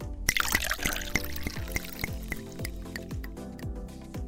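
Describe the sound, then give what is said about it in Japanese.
A golden-yellow drink from a resealable bottle pours into a glass, trickling and gurgling with a run of sharp, bright drips and splashes. The pour is fairly faint and grows quieter toward the end. “グラスに注いでみたいと思います。”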